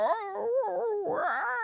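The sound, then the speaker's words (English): A human voice imitates a very vocal puppy's talking noise, a continuous whiny howl that wavers up and down in pitch for under two seconds. “Bubba is so vocal. Bubba's very much like a... You know, you come in and he's like,”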